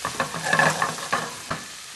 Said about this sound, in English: we're just going to soften the leek. We're not going to brown it or sauté it.